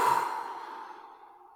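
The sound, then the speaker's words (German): A group exhales together during a breathing exercise: one long, breathy release of air that starts strong and fades steadily over about a second and a half, with no talk. “jetzt kurz einatmen. Halten. Und ausatmen.”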